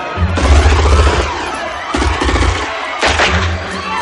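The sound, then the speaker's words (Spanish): Gunshots fired into the air by armed assailants in a hall in the 1988 action film Die Hard. A few sharp, loud bursts land over shouting and a crowd's commotion. “Cierra y continúa subiendo, mientras en el salón disparan al aire.”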